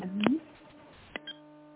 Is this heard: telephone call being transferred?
yes

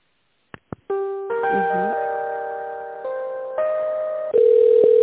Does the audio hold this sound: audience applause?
no

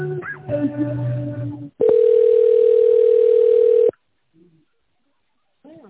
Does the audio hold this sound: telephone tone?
yes

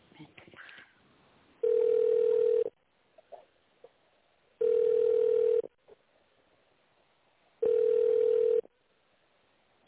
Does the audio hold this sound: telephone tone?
yes

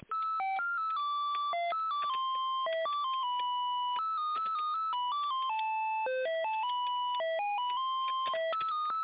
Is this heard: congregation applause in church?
no

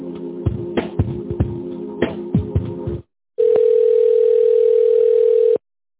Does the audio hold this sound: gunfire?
no

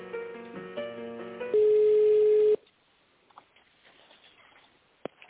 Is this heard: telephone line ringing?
yes

